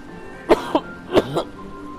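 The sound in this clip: A person with something stuck in their throat clears it in two quick pairs of harsh, short rasps, four bursts in all, alone without talk.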